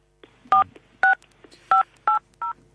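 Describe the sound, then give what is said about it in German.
Telephone keypad tones on a live call line: five short dual-tone beeps at slightly uneven intervals, each with its own pitch, plus faint soft blips between them. “da ruft anscheinend wieder jemand bei dir an.”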